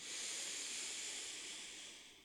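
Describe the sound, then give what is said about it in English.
A slow, deep breath drawn in through the nose during a meditation, a soft, steady airy hiss that swells and then eases off over about two seconds, heard alone without speech. “Let's do that twice more. Inhale in through the nose.”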